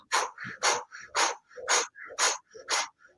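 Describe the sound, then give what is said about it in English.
Rapid breathing in and out through the mouth during a breathwork exercise: many quick, panting breaths in a regular rhythm, loud breathy puffs alternating with softer, slightly voiced ones, heard alone without talk. “50 breaths through the mouth.”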